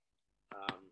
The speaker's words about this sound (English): my phone's going off here